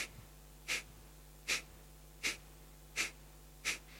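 Gentle Kapalabhati yoga breathing, a practice suited to late pregnancy: five short, sharp, breathy exhalations pushed out at an even, steady pulse, with quiet pauses between them and no talk.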